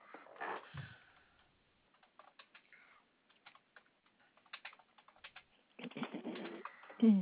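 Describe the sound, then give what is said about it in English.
Credit card details are typed on a computer keyboard in quiet, irregular bursts of light key clicks separated by short pauses, with louder, denser activity near the end. “Yeah, so I'm putting in the credit card information right but now.”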